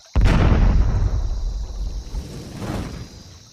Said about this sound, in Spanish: Atilio no había terminado de decirlo cuando vi una gran pelota de fuego que echó un chorro de candela hacia los lados.